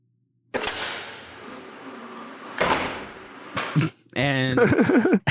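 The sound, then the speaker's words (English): A voice imitates a dildo being launched, with a few breathy whooshing bursts followed by a wavering, pitched vocal tone. “So they go to the sex club and chicks are shooting dildos out of their clams. And it sounds like this.”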